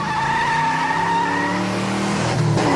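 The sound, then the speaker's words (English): Tyres squeal loudly and without a break as a van drives off, a sustained, high, wavering screech over a low engine rumble. “I think someone's taking the van.”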